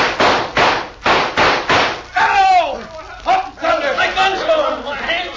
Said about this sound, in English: Now shoot at their guns, yeah. Along with me.